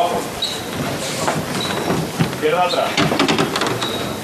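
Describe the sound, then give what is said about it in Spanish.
Rubber-soled shoes of float bearers squeaking on marble paving during a Good Friday procession in Seville: several short, thin, high squeaks over a steady murmuring background of shuffling and crowd noise. “poco a poco chirrían. Eh, mármol, las zapatillas de los costaleros.”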